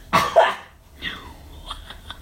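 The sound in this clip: Two harsh, loud coughs come from a person with a sudden tickle in the throat, followed by fainter breathy throat sounds.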